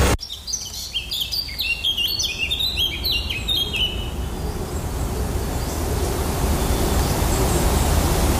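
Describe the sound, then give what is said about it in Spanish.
A New England forest in the northeastern United States: quick, high bird chirps and trills fill the first half, then fade. A steady rushing hiss runs underneath throughout and continues alone to the end. “Así suena un bosque de Nueva Inglaterra, noreste de los Estados Unidos.”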